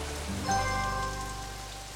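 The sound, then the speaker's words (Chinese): Rain falls as a steady, soft hiss of drops on a surface, faint and continuous for the whole short stretch. “下雨了，下雨了，下雨了。”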